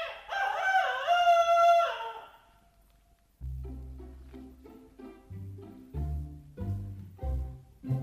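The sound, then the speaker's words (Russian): A rooster crows outside a window, one long, loud cock-a-doodle-doo lasting about two seconds, followed by a short quiet gap and then a steady sequence of low musical notes forming a melody. “За окошком снова прокричал петух.”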